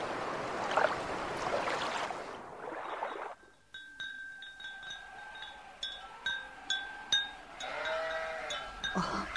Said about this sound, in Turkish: Koyunlar da her tarafa dağıldılar. Ta tekkenin bahçesinin kenarına kadar gitmişler.